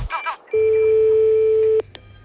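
Telephone tones while a call is placed: a brief cluster of short beeps, then a single long, steady, loud tone, followed by a faint blip.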